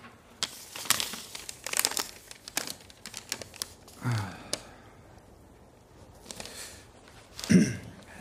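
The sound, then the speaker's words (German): A paper letter being handled and unfolded in a courtroom, giving many crisp crinkles and crackles of varying loudness, with a few louder rustling bursts scattered among them. “Moment, ich habe ein Schreiben erhalten.”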